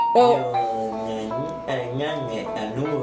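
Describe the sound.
An incoming phone call rings with sustained, chime-like melodic tones that waver slightly and carry on steadily and fairly loud through the whole stretch.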